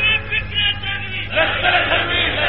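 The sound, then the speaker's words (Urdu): A crowd chants slogans, a loud mass of voices that swells after the first second and carries on unbroken to the end. “یہ دیکھ لو یہ نعرے لگ رہے ہیں”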